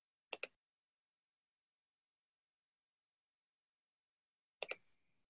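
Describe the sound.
A computer mouse clicks twice in quick succession, then after a long silence another quick pair of clicks follows; both pairs are sharp and faint.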